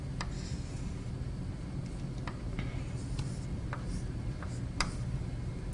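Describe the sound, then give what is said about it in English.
A knot diagram is drawn by hand, giving faint scratchy strokes and a few scattered taps over a steady background hiss. “So I'll try to draw this in a nice way.”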